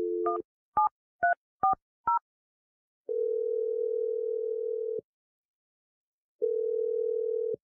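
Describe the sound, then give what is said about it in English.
Touch-tone keypad beeps as a telephone number is dialed: five quick dual-tone beeps in a brisk row. Two long, steady ringback tones follow, separated by a gap of silence. “I'm going to dial Teresa's number if you're ready.”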